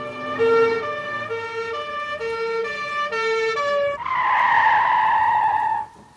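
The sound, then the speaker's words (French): Two-tone police siren of the gendarmerie chasing a car speeding on a motorway, an alternating high-low wail repeating for about four seconds, then a loud, sustained tire screech that cuts off sharply near the end. “faut l'intervention de la gendarmerie qui l'aborde alors qu'il roule à pleine vitesse sur l'autoroute pour stopper le Jean-Claude dans son élan hallucinant.”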